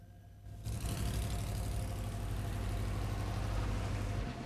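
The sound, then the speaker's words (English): Engine drone of a jeep and an armoured truck driving along the main street of a small town. A steady low rumble begins abruptly after a brief quiet opening and holds evenly to the end. “The jeep and the armoured truck bump along the main street, and the vampire hunters look out at the hick town”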